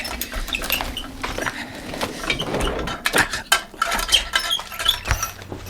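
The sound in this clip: Busy scraping, scratching and small clicking sounds as a pocket knife works loose the screws of a ventilation grille fastened from the outside, an irregular metallic patter running throughout.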